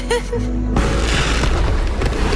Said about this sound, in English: Oh, actual fireworks. Actual fireworks.